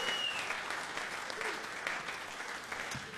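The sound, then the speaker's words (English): An audience applauds a live show's sound engineer with dense, steady clapping that keeps an even level from start to finish. “I bet a big, big hand for Myron. Yeah, man.”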